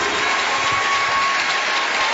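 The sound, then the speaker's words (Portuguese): Congregation applause in a church service after a call to applaud for Jesus: a dense, steady wash of clapping that holds an even level for the whole stretch. “Um aplauso bem forte para Jesus!”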